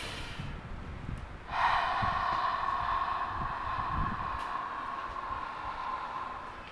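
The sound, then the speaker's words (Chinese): Breathing during a breathing-control exercise for clearing phlegm in COVID-19 recovery: one long, steady, slightly whistling breath lasting about five seconds, faint and alone with no talk. “这样子哈出雾气，把气吐到最干净。”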